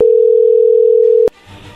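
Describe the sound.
A telephone dial tone as a call is placed: a loud, steady mid-pitched hum lasting just over a second, cut off sharply by a click, then faint line noise.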